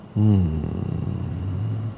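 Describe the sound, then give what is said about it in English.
A creature inhales deeply: a sudden loud, low, voiced rasp that turns into a rough, rumbling drawn-out breath lasting nearly two seconds. “The creature inhales deeply.”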